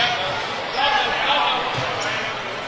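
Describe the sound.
A basketball is dribbled on a court, its dull bouncing thuds partly buried under a continuous commentator's voice and a busy background.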